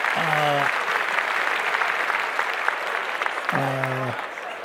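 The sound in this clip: Applause from a crowd, a steady wash of many hands clapping that runs throughout, with a voice speaking over it at the start and again near the end.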